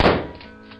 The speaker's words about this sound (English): I guess it was a gunshot.